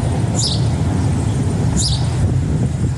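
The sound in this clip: Bird call: two brief, high chirping bursts about a second and a half apart, heard over a steady low rumble like road traffic.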